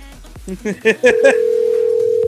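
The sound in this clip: Telephone dial tone on an outgoing call: a few short chirps lead into a steady, unbroken mid-pitched tone that holds for over a second and then cuts off abruptly.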